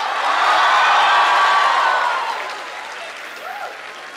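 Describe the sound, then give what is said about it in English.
An audience applauds at a university department event with loud, dense clapping that holds steady, fades after about two seconds and then continues more softly. “A huge round of applause to you guys on behalf of all of us.”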